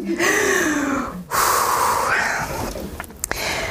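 A deep breath drawn in and let out during a Bible teaching session, a breathy rush of air with a soft sigh-like release at moderate volume, followed by a few faint clicks.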